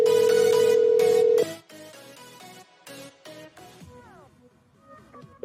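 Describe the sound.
An electronic phone ringtone rings unanswered, with no voicemail picking up. It opens with a long, steady held tone, then breaks into a series of shorter melodic electronic notes that grow quieter.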